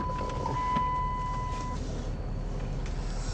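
A car being driven gives a steady, low rumble throughout, with a thin, sustained beep-like tone over the first half.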